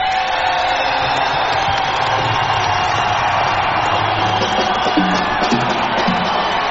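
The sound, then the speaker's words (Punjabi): Crowd at a live music show cheering and clapping for their home villages, a loud, unbroken roar of many voices with whoops and shouts rising through it. “ਇਹ ਤਾਂ ਤਾੜੀ ਹੋ ਗਈ ਗਾਣੇ ਲਈ, ਇੱਕ ਆਪਣੇ ਆਪਣੇ ਪਿੰਡ ਲਈ ਵੀ ਤਾੜੀ ਮਾਰ ਲਓ।”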